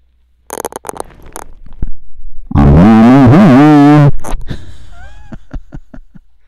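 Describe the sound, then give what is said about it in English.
A snort made with the nose right up against the microphone: a loud, distorted, rumbling blast lasting over a second with wavering pitch, surrounded by scattered clicks and rustles. “So it sounds like it sounds like if you put your nose right up to the microphone.”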